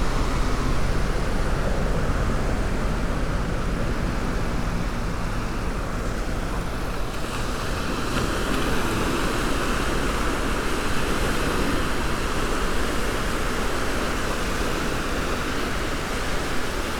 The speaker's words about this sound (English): Thursday afternoon, and I'm on Perrin Sands, or Perrinufno Sands.